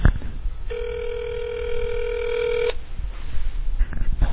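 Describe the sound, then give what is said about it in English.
One ringback tone plays over a phone line as a call waits to connect to voicemail. It is a steady, buzzy electronic tone lasting about two seconds, set against constant line hiss. “I just hope it picks up those rings, otherwise it's really boring.”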